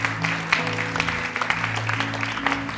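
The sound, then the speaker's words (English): Applause from a church audience welcoming back a returning guest during a morning service: dense, steady clapping that fills the whole clip at an even level, with a few sharper claps standing out. “Welcome back, Lorraine. Let's give Lorraine a hand this morning.”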